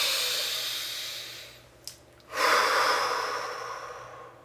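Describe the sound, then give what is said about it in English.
A single deep breath drawn in during a tapping exercise swells after a brief lull and then slowly fades over a steady hiss. “Take a deep breath.”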